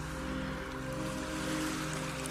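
Ocean waves roll in a continuous, even wash of surf, a soft and steady rushing noise with no pauses throughout.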